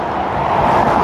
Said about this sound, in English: cars and trucks are going really fast right next to me, so I don't like staying on this road any longer than I have to.